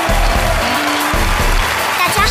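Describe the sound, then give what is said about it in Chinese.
An audience applauding to welcome a group of child poets from the mountains of Yunnan onto a stage, a steady clatter over low tonal music. “掌声欢迎，欢迎你们。”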